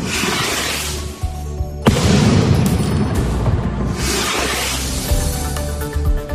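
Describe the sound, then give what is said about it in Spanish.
Festival firework bombs launched during the San Serapio celebrations in Concho: continuous heavy rumbling booms and blasts, broken by one sharp loud crack partway through, with no voices. “lanzamiento de bombas de palenque”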